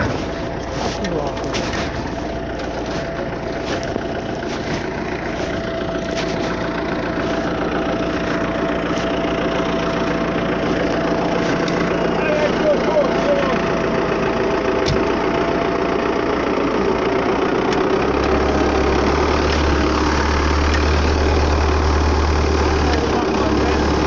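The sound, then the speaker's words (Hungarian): A tractor engine with a fault idles steadily, giving off a chirping noise over a continuous low rumble that deepens slightly toward the end. “Nézzek a traktor, hogy csicsorog, hallottad? Valami baja van neki.”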